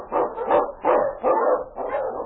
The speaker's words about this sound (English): Sing on, you huskies!